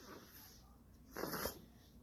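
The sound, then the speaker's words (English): Person inhaling smoke from a blunt, heard in a video: a faint, short breathy draw with a wheezy, snorting edge that swells in the middle and then fades. “Oh my gosh, this person just inhaled that into their lungs. Blunt.”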